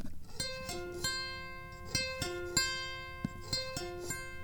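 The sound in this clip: Plucked strings on a cigar box guitar neck mounted on a small cigar box 22 by 15 by 4 centimeters: a quiet run of twangy, ringing notes with sharp attacks and sustained tones, played in short repeated phrases.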